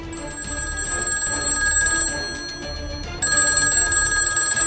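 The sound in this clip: Telephone ringing with an incoming call: a bright, steady electronic ring that sounds in repeated bursts, with a short quieter gap before the ringing resumes at full strength, and no voices.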